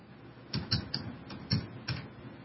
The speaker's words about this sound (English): Let me type this in there. Okay, you don't need me to type it.